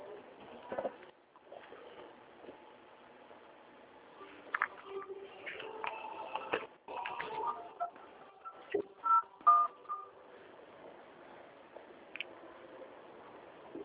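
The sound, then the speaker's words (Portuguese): Telephone keypad dialing tones while a call is put on hold and transferred: a few short, faint beeps over low line hiss and quiet clicks. “eu vou passar a ligação para o setor de qualidade, tá certo? Tudo bem. Fique na linha, por favor, não desligue não.”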